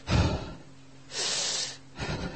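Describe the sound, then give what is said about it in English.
A man imitates the deep, heavy breathing of a man resting on a settee: a loud snorting breath, then a long breathy exhale, then another shorter breath. “one guy was left on the settee and he was sort of breathing deeply.”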